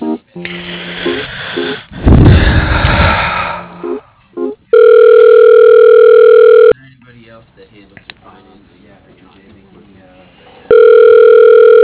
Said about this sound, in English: All right, just transfer me to the voicemail, please.